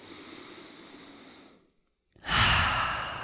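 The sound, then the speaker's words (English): A deep cleansing breath: a long, soft inhale through the nose, a brief silent hold, then a louder, breathy exhale through the open mouth that slowly fades. “let's take a few, yeah, really cleansing breaths. So breathing in through the nose, you can fill the body all the way up. And open the mouth, let it go.”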